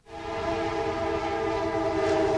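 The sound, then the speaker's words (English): A rattling commuter train in Quantico, Virginia, gives a continuous rumbling drone with steady tonal ringing layered over it, holding at an even loudness throughout with no voices. “Quantico, Virginia, with its rattling commuter trains”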